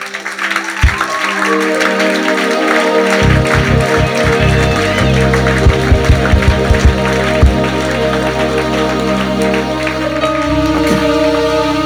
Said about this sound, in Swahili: Sasa tumpigie Mungu makofi.